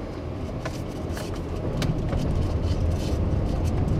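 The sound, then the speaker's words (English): A car on a rural road through cornfields in Knox County, Illinois, moving from pavement onto gravel. Steady engine and tire rumble grows louder and rougher partway through. “At a stop sign, looks like we're about to transition to gravel.”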